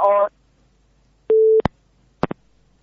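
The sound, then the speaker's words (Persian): A telephone busy tone sounds after a phone call is cut off: a short, steady, mid-pitched beep, then a few sharp clicks on an otherwise quiet line. “تماس آقای بهاءالدین را از دست دادیم، قطع شد”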